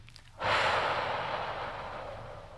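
A person breathes in deeply through the nose during a guided breathing exercise: one long, breathy inhalation starts abruptly and keeps up a soft hiss that slowly fades, faint and alone.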